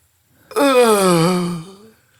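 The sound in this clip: A voice imitates a tennis player's long, drawn-out exhale while hitting the ball: a single voiced, moaning breath of about one second, steady and loud, sagging slightly in pitch before trailing off.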